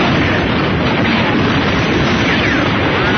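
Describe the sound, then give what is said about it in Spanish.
Dense, continuous battle noise of gunfire and blasts during an attack on the church of Baler, a steady loud roar that runs unbroken throughout, with no separate shots standing out. “A las pocas horas, los filipinos atacan la iglesia de Valer. El capitán de las Morenas ordena iniciar el fuego.”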